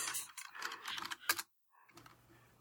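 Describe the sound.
Clattering computer keyboard typing: a run of quick, dense key clicks with one sharper tap, then a short pause before softer tapping resumes.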